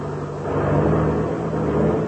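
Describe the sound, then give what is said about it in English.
A small airplane taxis across a field with a steady, loud engine drone. The rumble stays fairly constant, with a low hum beneath it and no speech. “Hey, that is a monoplane over there. Yeah, I can see now. Well, we'll turn and taxi over beside it.”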